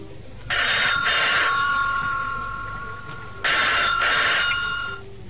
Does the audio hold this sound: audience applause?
no